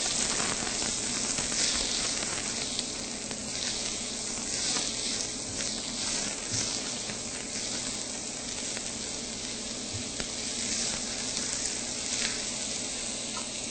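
Chopped onions fry and sizzle in a pan as they are stirred around, a steady, dense hiss holding an even level throughout with faint scraping ticks scattered through it.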